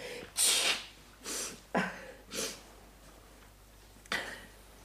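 A woman blowing her nose several times in short, noisy, breathy bursts with brief pauses between them, with no talk during the blows.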